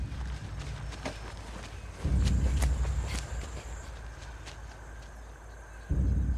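Running footsteps of a girl sprinting across sunny, open ground toward a table, a quick continuous patter over steady outdoor noise, with heavier low thuds that swell partway through and again near the end.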